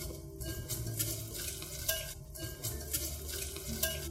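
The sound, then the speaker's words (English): A whisk works sugars into a mixture in a large mixing bowl until smooth, with many faint, quick, rhythmic scraping strokes and no talk. “And then add in all our sugars that we had set out earlier. Whisking until smooth.”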